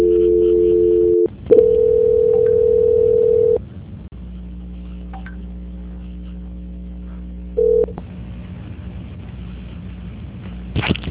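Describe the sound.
A telephone dial tone hums during a call transfer, a steady electronic tone that breaks off briefly and resumes, then gives way to a low hum with one short beep and a few faint clicks near the end.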